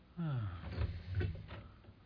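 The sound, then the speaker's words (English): A door creaks as it is opened, giving one drawn-out, moderately loud groan that slides downward in pitch, followed by softer clunks and rubbing noises. “Would you mind opening the door?”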